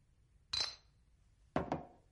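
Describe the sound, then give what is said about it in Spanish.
Two sharp glass clinks as a woman serves herself a drink at home. They are spaced about a second apart, each bright and brief, against a quiet background with no talking. “se sirve una copa.”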